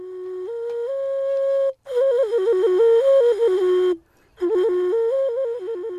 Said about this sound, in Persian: این صدای نوی از توله سفالی است